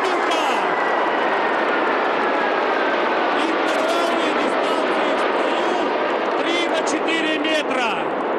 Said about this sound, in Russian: Пилотажная группа РОМ из 9 самолетов, 5 самолетов Су-27 и 4 самолетов МиГ-29.